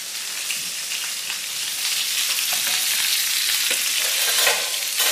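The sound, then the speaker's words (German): Sizzling of food frying skin side down in very hot oil: a dense, steady crackle and hiss with no talk, growing slightly louder after the first couple of seconds. “Halt mal die Hand kurz ins Öl. Ja, doch, guck mal hier. Genau, wir braten uns jetzt auf der Hautseite an.”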